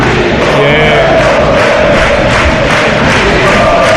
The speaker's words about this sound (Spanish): Bueno, ahora el público de Huelva que responde. Ahora también los béticos que también se unen a la canción.